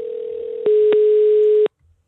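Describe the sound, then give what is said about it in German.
Telephone line tone of an outgoing call, a steady mid-pitched hum that turns louder after a click and then stops with another click, leaving near silence. “Und in der Weltzeit wollen wir nun in eine telefonieren, die wirklich große Schritte einleitet”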